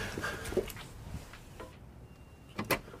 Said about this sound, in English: Hold on, it's the damn bolt. Just a moment more, don't go.